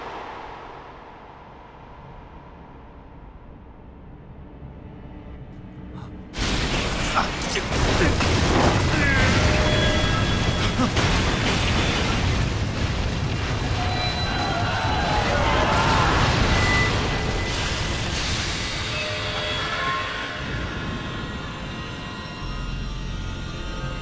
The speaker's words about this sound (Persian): لعنتی، اون صدای انفجار چی بود؟